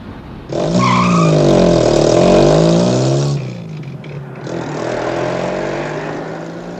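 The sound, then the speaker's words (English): A car drives off into the night with a loud, strained engine roar and a tire squeal for about three seconds, then drops to a softer, lower rumble that trails away. “drives off into the darkness.”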